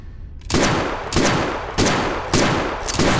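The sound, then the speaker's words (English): Five .410 shotgun shells fired rapidly in an enclosed space: five loud, sharp blasts at an even pace about half a second apart, each one trailing off just as the next hits. “The thunderous noise of 5 PDX.410 shotgun shells being fired in a couple of seconds is bad under normal conditions.”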